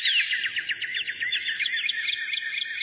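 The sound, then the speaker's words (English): Birds singing: a continuous, bright run of rapid high chirps and trills that stays fairly loud and steady throughout, heard alone. “Can you turn the birds down?”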